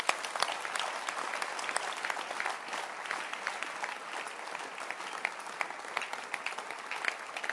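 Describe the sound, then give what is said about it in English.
A church audience claps their hands: a dense, fairly soft patter of many overlapping claps that holds steady for the whole stretch without a break. “Clap your hands again.”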